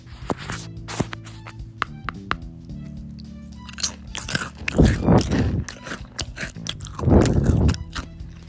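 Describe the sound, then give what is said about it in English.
Crunching bites of a Cheez-It cracker recorded close up for ASMR: a few sharp, crisp bites and snaps followed by crackly chewing, with two louder bursts of crunching near the end. “Now I'm going to be doing some ASMR, so yeah, this is a Cheez-It.”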